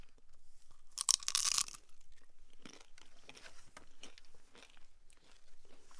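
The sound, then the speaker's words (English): A crispy fried samosa with a thin phyllo- or spring-roll-style wrapper tied with scallion gets bitten into: one loud, sharp crunch with crackling texture, followed by fainter, scattered crackles of chewing. “This samosa is like a crispy dumpling. You've filled almost like a phyllo dough or like a spring roll wrapper type of pastry. You've tied it off with a scallion, and you fried it so the edges come up like a beautiful cloth. All right, I'm going in.”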